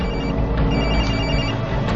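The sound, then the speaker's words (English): A cell phone rings with an incoming call, a steady, continuous electronic ringing tone that runs through the whole clip with no talk over it. “We got a call coming through on Len's cell phone. We're putting it through.”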